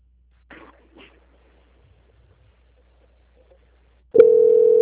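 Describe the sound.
A steady telephone tone plays while a call is transferred. It switches on abruptly near the end after a mostly quiet line and holds one loud, even pitch. A couple of brief, faint sounds come earlier.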